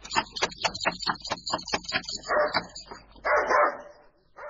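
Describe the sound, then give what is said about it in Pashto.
A dog at a house door barks in a rapid series of many loud barks, followed by a few rougher, noisier bursts. “تاسو بد سپی لري”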